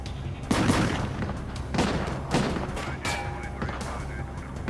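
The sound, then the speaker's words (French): Gunshots in a shootout in a parking area, with fire coming from opposite directions: several sharp, loud bursts of gunfire at irregular intervals over a steady background rumble. “Il fit volte-face et tira en direction de Bammel.”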